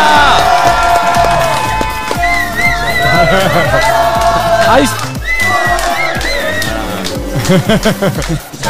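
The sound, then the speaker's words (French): Fan zone crowd cheering and shouting, with many voices whooping and yelling together, loud and busy throughout with sharp shouted peaks near the end. “Et il y a une partie de sa fanzone qui est avec nous aujourd'hui. Ouais, du bruit, voilà.”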